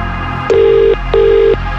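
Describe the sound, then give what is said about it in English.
Ringing tone of an outgoing telephone call placed to a contest winner: two steady, mid-pitched electronic tones, each about half a second long, with a short gap between them. “1 ring. 2 rings. 3 rings.”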